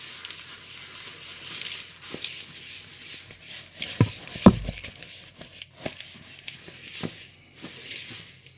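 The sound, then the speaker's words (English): Dry ingredients being worked into a clumping batter by hand make soft, irregular rubbing and squishing sounds with scattered light thumps, one firmer thud near the middle, and a steady faint hiss underneath. “Now, it's going to take a second to mix, and I'm doing it by hand.”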